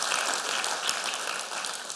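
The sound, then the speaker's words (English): Congregation clapping during a church service: a steady, dense wash of hand claps with no clear individual beats, fairly faint and continuing evenly throughout. “Come on, go and clap your hands and give God glory for that.”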